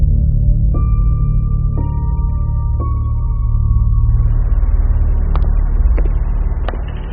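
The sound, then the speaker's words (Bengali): A car engine rumbles in a parking lot as the car pulls away. It is a steady low drone with faint tonal whine, and a few sharp ticks are spaced through it. “Sweet থেকে বেরিয়ে তিতিরা রাজা সোজা parking লটে গিয়ে গাড়িতে উঠল।”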